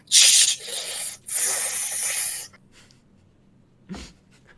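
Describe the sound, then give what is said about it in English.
A bong hit drawing smoke through a water pipe gives two long, harsh hissing pulls separated by a brief break. A softer, low rustle and a short breathy burst follow. “Hold on 1 second, one more bong rip.”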